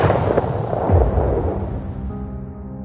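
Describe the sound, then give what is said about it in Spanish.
Continuous gunfire crackles in dense overlapping bursts as shooting goes on at a journalist who is filming. The noise is loud and steady throughout and carries no clear voices. “¡Siguen disparando!”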